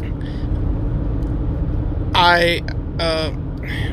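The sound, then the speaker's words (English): Steady low road rumble from inside a Jeep being driven home, a continuous engine and tire drone throughout, with brief voice sounds rising over it twice near the end. “I'm actually riding home in my car, well, my wife's Jeep, and”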